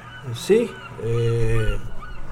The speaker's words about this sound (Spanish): me está sonando el celular, pero... Gaviotas tiene. Sí, gaviotas. Parece que estuviéramos en el mar.